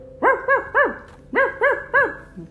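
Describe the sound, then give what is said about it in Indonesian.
A voice imitates a dog barking in a story about animals, six loud woof-like barks in two groups of three, each curving up and down in pitch, with no other talk. “ah terus anjingnya sama-sama bilang”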